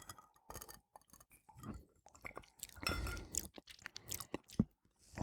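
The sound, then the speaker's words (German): Sipping a pink cocktail of gin and wine with lemon: soft, irregular sips, wet mouth sounds and swallows, faint and intermittent. “Man riecht so ein bisschen den Gin, aber auch den Wein. Ja, und dann trinken wir doch mal.”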